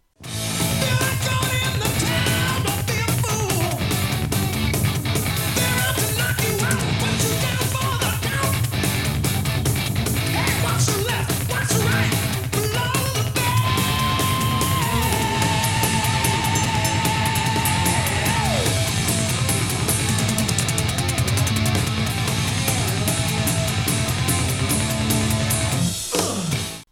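A loud, fast thrash-metal-like hard rock track with heavy distorted guitars, pounding drums and shouted vocals, dense throughout, with one long sustained guitar note standing out midway.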